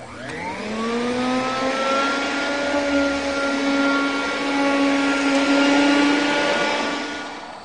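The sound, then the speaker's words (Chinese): A hair dryer blowing someone's hair starts with a rising whine as its motor spins up, then settles into a loud, steady whirring rush of air that lasts about seven seconds before easing slightly. “吹头发，那你上手好了”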